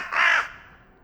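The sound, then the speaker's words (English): A single crow caw, short, harsh and hoarse, fades quickly into quiet. “Oh my God, I am talking to a crow.”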